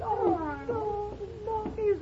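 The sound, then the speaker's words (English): A small white stray kitten meows several times in quick succession, thin wavering cries. “Just a little stray kitten, but white. White all over.”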